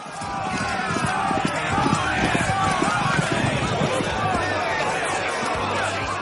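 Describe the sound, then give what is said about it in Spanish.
Hooves of two Percheron draft horses in an animated tournament scene: many quick clip-clop hoofbeats pound steadily against a busy, noisy background. “Aparecen los dos caballos percherones del comienzo.”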